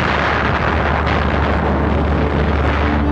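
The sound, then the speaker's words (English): Bomb detonations from a wartime dive-bomber attack form a dense, continuous roar with heavy low rumble, loud and steady throughout, with no separate blasts standing out. “the screaming sound of the dive bombers, the detonation of the bombs, this just terrified people.”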